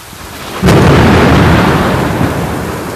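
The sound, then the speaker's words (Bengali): Heavy rain roars steadily during a storm with frequent lightning, and a sudden loud thunderclap bursts in and rolls on as a long, deep rumble over the downpour. “বজ্রপাতটা প্রচুর, কোনো এক কারণে অনেক বেশি বজ্রপাত আজকে হচ্ছে আর কি।”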